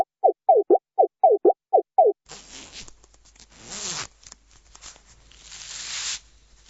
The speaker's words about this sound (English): What you are hearing is the waiter opening his jacket and showing his fur to his clients.